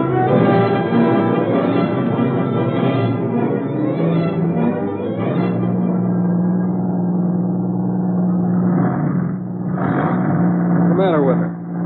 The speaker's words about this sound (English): Sounds like we might have blew a gasket or something.